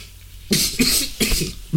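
Coughing after choking on inhaled whisky, a few harsh, breathy coughing bursts in quick succession, fairly loud, with short gaps of quiet between them.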